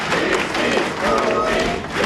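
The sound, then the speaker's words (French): Applause and crowd noise rise as a family walks at the head of a large street march of about 4,500 people. A dense, continuous wash of clapping carries on with a crowd murmur and no clear breaks. “La famille de Louis avance en tête du cortège sous les applaudissements.”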